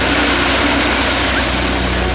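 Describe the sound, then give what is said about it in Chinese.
Grain drying machines run at full power drying wheat, giving a loud, steady, dense roar with a low engine hum that holds unchanged throughout. “现有所有的烘干设备都是全马力开动进行粮食烘干作业。”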